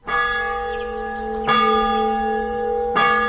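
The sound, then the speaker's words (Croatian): Church bells ring from the bell tower of a 150-year-old Orthodox church in Bijelo Polje, north of Mostar: three loud strikes about a second and a half apart, each sustaining a rich, humming blend of overlapping tones. “Ovo je zvuk zvona sa zvonika crkve Vaznesenja Gospodnjeg u Bijelom polju, nekih 10 kilometara sjeverno od Mostara”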